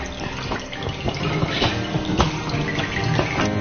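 Water drips and trickles from freshly dyed cloth just lifted out of the dye bath, a continuous soft patter with scattered sharper drops.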